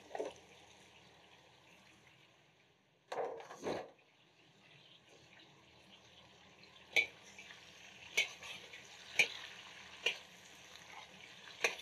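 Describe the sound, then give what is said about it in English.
Eggplant and mixed vegetables, including bok choy, frying in a pan: a steady low sizzle, a brief loud burst of clatter partway through, then several sharp knocks of stirring over the hiss. “This eggplant, it's so nice and tender, it takes like a couple of minutes just to get it nice and cooked. While that's happening, I'm gonna dump the rest of the vegetables in here.”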